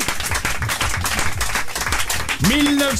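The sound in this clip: An audience applauds and cheers for a guest with dense, steady clapping throughout, and a single voice calls out above it near the end.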